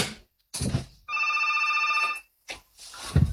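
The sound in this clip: A telephone rings with an incoming call: one steady, trilling ring burst of about a second, fairly loud, set between brief bursts of other noise.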